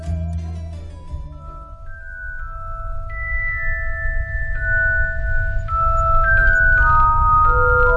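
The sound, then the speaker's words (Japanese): Music plays on the radio, with a melody of clear, bell-like chiming notes ringing over a steady low rumble and growing slightly fuller toward the end. “放送事故じゃないですよ、ちゃんと音楽流れてると思います。”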